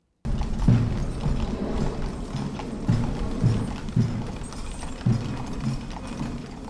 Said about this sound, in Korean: 운구 행렬이 지나가는 장면인데요. 네. 미 해병대 군악대의 북소리 들으셨고요. 또 마차 소리가 같이 들렸죠.